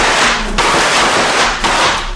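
Gunshots fired at elephants charging the trees: two sharp cracks about a second apart cut through a dense, harsh noise that continues throughout.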